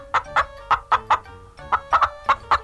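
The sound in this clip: A hen clucks in a quick series of short, sharp clucks with a brief gap partway through. The clucks are moderately loud and no voices are heard.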